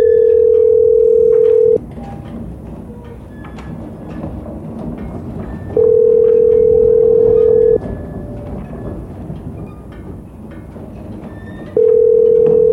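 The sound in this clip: Ringback tone of a telephone call waiting to be answered: three long, steady electronic tones separated by pauses of a few seconds, over a constant rumbling, rattling background resembling a moving train.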